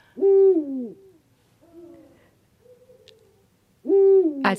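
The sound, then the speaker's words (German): A male Eurasian eagle owl gives a deep two-syllable hooting call, loud and falling in pitch. Faint, softer calls follow, then the hoot repeats loudly near the end. “Also was man jetzt hier hört, ist der erste Ruf, das ist ein Männchen, das ist ein, ja, der Uhu ruft seinen Namen, ein zweisilbiges Uhu oder Buhu.”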